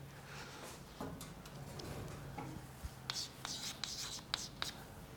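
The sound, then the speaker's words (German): Writing on a board during a lecture on logic operations, with a run of quiet scratches and sharp taps that grow busier toward the end, over a low hum. “Also ich schreibe jetzt mal immer so die Abkürzung hin.”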